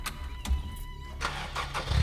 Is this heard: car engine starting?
yes